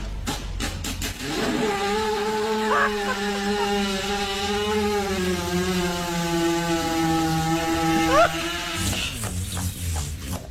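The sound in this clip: A horse passing gas during digestive discomfort: one long, loud, reedy buzz that holds steady for about seven seconds with a slightly wavering pitch and a brief upward squeak near the end.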